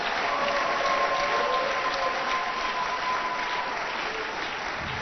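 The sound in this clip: Congregation at a church service applauding, with dense, steady clapping that holds at an even level for the whole clip.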